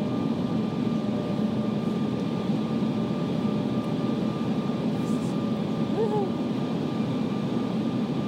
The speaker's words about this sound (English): It's going down and a bit up and we're landing.